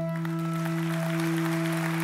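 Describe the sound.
Audience applause greets a speaker, soft, steady clapping running through the whole stretch beneath a loud, constant electrical hum.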